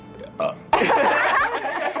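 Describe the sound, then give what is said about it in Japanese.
A person's burp: a short, softer sound first, then a loud, throaty burp that rumbles on for over a second. “ゲップしました。”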